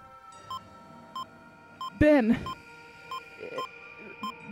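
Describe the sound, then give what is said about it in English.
A heart monitor emits a steady run of short, evenly spaced electronic beeps at a medium-high pitch, with one louder, rougher burst of sound breaking in partway through. “you start hearing that heart monitor go wild. Mm-hmm. Beep, beep, beep, beep, beep, beep.”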